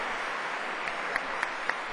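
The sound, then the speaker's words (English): Festival audience applause for volunteers, donors and sponsors, a fairly soft, even crackle of clapping with four short, sharp, evenly spaced chirps sounding through it. “I want to take a moment to thank all our volunteers, donors, and sponsors for their generous support. This festival would not be possible without them, so give them all a big round of applause.”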